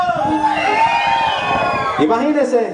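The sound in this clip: A crowd at a late-night concert shouts, yells and whoops loudly and without a break, with a fresh burst of raised voices rising near the end.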